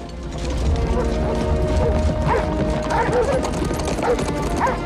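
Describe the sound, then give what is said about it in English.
Hooves of horses clatter over a wooden bridge as riders leave a castle, with a dense, steady run of many overlapping hoofbeats and no talking. “The king and Brock climb onto their horses. Brock has a falcon perched on his gauntlet. They and Felton ride out of the castle along a wooden bridge”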